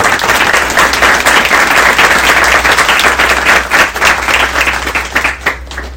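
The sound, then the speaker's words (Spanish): An audience applauds at the close of a talk. Steady, dense clapping holds for several seconds, then thins out into scattered claps near the end. “Un aplauso para los compañeros.”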